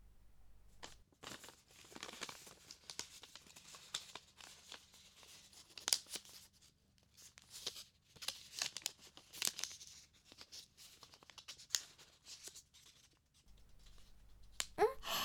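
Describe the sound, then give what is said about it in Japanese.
Paper crinkles and rustles as an origami sheet is folded into a triangle, from the tip toward the folder, while shaping a bush warbler. The sound is a quiet run of many scattered crisp crackles and creases. “大きい三角形の方を下にある頂点から手前に折ってみて。”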